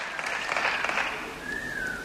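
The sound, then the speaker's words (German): Applause mixed with whistles at the end of a speech by Viktor Orbán: a fairly quiet, steady crowd clapping with a long, sustained whistle tone rising out of it near the end. “sagte Viktor Orban und erntete am Ende seiner Rede Applaus mit Pfiffen”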